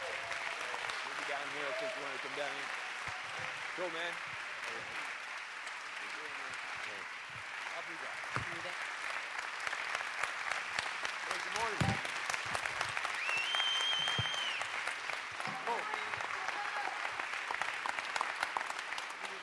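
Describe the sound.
Audience applause welcomes a church founder and author onto the stage: a steady, dense wash of clapping that lasts about twenty seconds, with a few voices mixed in near the start.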